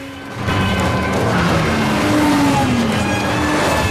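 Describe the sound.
An SUV braking to a stop in speeding traffic: after a brief quieter start, loud continuous vehicle noise swells in, carrying a wavering tonal squeal of tires that holds and bends in pitch over the rumble.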